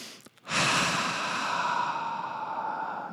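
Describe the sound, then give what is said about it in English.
A deep breath, heard as a long airy exhale that rushes in and then holds steady for nearly three seconds before trailing off. It is fairly faint and stands alone, with no talk. “So take a deep breath.”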